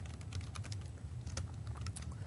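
A workflow name is typed on a computer keyboard as a faint, steady run of quick key clicks over a low background hum.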